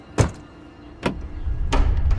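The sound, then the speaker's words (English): Car door thuds and lock clunks as someone gets into a car and locks it: three sharp, separate knocks spaced apart, with a low rumble building under the last one. “Ruth quickly gets into her car and locks the doors behind her.”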